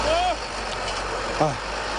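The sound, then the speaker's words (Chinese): A rotary tiller's engine runs at full power while ploughing farmland, giving a steady, unbroken mechanical drone with brief voice-like sounds over it near the start and again partway through. “旋耕机马力全开，不到半小时的时间，就将一亩多的农田耕完。”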